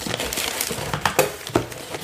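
Crinkling and rustling of paper as a large envelope is opened, with a few sharper crackles standing out from soft handling noise.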